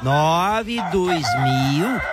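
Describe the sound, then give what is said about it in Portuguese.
A rooster crows once, loud and drawn out, for about two seconds. The harmonic call wavers in pitch and ends with a brief upward then downward turn. “Galo cantou, marcou 4-1.”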